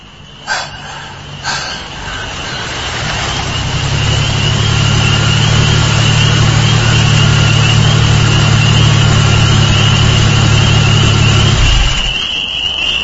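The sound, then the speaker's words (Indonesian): A car engine idles after the car stops on a road: a steady low rumble with a constant higher whine that holds for several seconds and then cuts off near the end, after a couple of soft thumps at the start. “Sampai tak jauh dari tempat motorku berhenti, mobil itu pun berhenti.”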